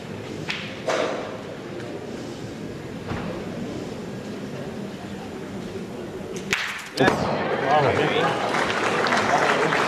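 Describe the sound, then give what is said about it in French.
Metal pétanque boule striking another boule in a carreau shot during a match: a few sharp clacks come through over constant background noise and voices, with one louder impact near the end followed by a surge of crowd noise. “Bien ressaisi pour Baldwin Mani qui était resté sur manqué double lors de ses deux derniers tirs, lors de la deuxième main. Ah mon vieux encore. Allez. Allez, essaye. Qui là vient de faire un carreau très important.”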